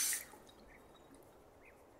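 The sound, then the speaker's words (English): Water splashes from a hand during ritual washing, a brief bright splash at the start that fades into a faint, steady trickle. “Now get some water in your hand.”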